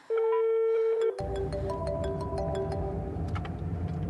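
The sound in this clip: A telephone rings with a steady electronic tone that gives way to a shifting series of pitched notes over a constant rushing background.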